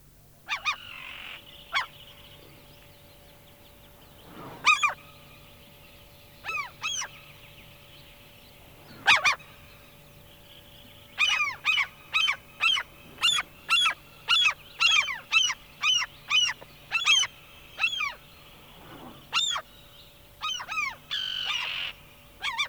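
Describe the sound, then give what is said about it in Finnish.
Common gull calls, a long series of sharp, loud cries that come in quick rhythmic runs, with a few scattered calls before the calling grows dense and steady through the second half. “Kalalokki.”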